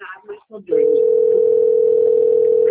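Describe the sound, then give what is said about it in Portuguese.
A steady telephone tone sounds on a call being answered. After a moment of brief voice-like sounds, it holds loud and unbroken at a single pitch for about two seconds, then stops abruptly. “Você ouviu a ligaçãozinha no começo, né? Eu tava tentando atender a ligação aqui.”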